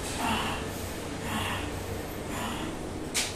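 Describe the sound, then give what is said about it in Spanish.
A voice imitating agonal breathing, fish-like gasping: three soft, breathy gasps at steady intervals, then one short, sharper burst of breath. “Hay veces que hay una, una respiración que se le conoce como respiración agónica. Es una respiración como de pez.”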